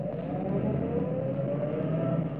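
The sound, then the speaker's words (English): A car comes up a driveway as a radio-drama sound effect, heard as a low, even engine hum that holds steady throughout with no voices. “There's a car. Yes, I see it. It's going to turn up our drive.”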